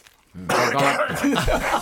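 Harsh coughing and throat clearing from someone speed-eating cream-filled pastries. The sound starts abruptly after a short quiet moment, then stays loud and continuous until the end.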